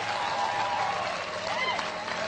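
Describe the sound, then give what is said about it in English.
A crowd gives a round of applause during a motivational talk, a steady wash of clapping at moderate level for the whole clip. “Get old man a round of applause.”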